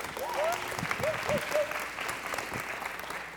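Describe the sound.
An audience at a worship gathering claps to welcome a woman speaker, steady sustained applause with a few voices calling out near the start.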